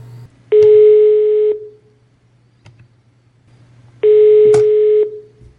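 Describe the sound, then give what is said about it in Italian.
Outgoing telephone call ringing on the line: two long, steady, buzzing ring tones, each about a second long and separated by a pause of roughly three seconds, loud and without any voices. “Adesso provo a chiamare un altro membro di comitato, ovvero Gabriele Ghirlanda.”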